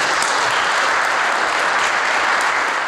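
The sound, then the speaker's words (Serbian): Applause fills a parliament hall, a dense, even clatter of many hands clapping at a steady level throughout, with no voices. “Aplauz bez glasa protiv ili prigovora”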